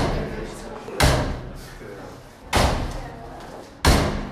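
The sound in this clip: Three loud door bangs from a dressing-room door backstage at an awards ceremony in Hradec Králové, evenly spaced, each a sharp thud over a steady background murmur.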